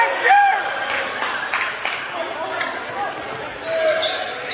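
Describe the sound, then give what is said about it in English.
A basketball is dribbled during a high school game between Sylacauga and Gadsden City. A few dull bounces sit in a steady crowd din, with a couple of brief high squeaks. “Now he'll dribble all the way out to the top of the key.”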